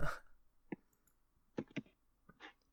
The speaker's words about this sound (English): Sorry, we're not going to talk for a second while we type.